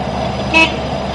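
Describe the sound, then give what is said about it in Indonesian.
A car horn gives a short, bright toot behind a motorcycle rider. It is one brief honk over a steady, low traffic rumble. “kaget dadak diklakson mobil ing burine”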